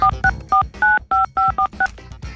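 Telephone keypad tones as a number is dialed: eight quick electronic two-tone beeps in an uneven rhythm, one held slightly longer, with no other sound.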